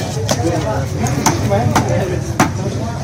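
A sharp axe chops large fish into pieces at a market, several hard, distinct thuds at uneven intervals over a steady background murmur.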